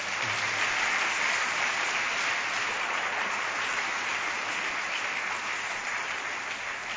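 A church audience applauds in a dense, even clatter of many hands clapping that holds steady for about seven seconds without a break.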